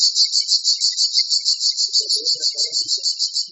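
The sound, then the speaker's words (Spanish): Cicadas sing in a high-pitched, rhythmic pulsing buzz, with many regular pulses repeating steadily and loudly throughout. “¿alguna vez has escuchado a las cigarras así?”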